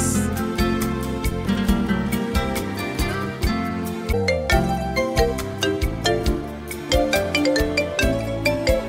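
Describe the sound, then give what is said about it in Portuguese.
An Android phone ringtone plays a rhythmic, melodic electronic tune at a steady, moderately loud level throughout, with regular percussive beats. “Olha o Android tocando.”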